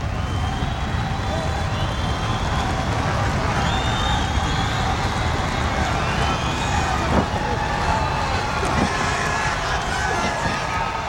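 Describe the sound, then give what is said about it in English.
A crowd rumbles at a live wrestling match, a dense, steady roar that fills the whole clip. Shrill whistle-like tones glide above it now and then. “And the rumble of the crowd begins.”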